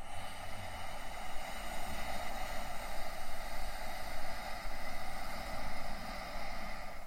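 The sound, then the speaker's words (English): Ujjayi breathing, made through a partly closed throat, gives a soft, steady, hissing rush of air that stays even and continuous, with only slight swells and a brief dip. “And it's an Ujjayi breath where you partially close the aperture in the back of your throat. A lot of yogis will know of Ujjayi breath, but it sounds like this.”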